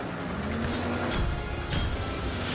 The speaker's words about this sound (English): Wow, we're kind of racing right out in here in the middle of the desert.